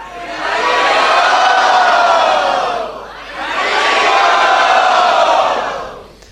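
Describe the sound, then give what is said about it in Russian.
A crowd loudly chants 'Haribol' as a blessing for people taking vows: two long, sustained, full-throated group shouts with a short dip between them. “Поэтому давайте благословим их громким харибол.”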